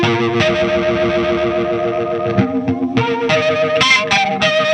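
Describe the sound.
Guitar played through a rack effects unit, giving a loud, distorted, warbling chorus-like tone. Sustained notes shift pitch a few times without a break.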